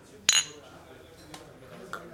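Glasses clink together in a toast with Kölsch beer in a pub. One bright, sharp clink comes first, followed by two fainter glassy taps over low background murmur.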